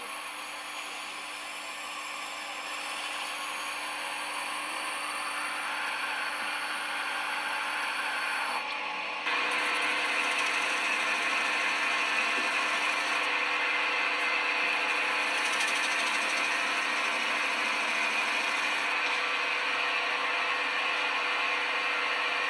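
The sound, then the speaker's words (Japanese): Roughly cut lapis-blue Edo kiriko cut glass from Tokyo is ground and smoothed with a steady whirring, hissing noise. The grinding stays loud and even throughout, with a slight shift in tone partway through and no voices. “粗く削った部分を整えていきます”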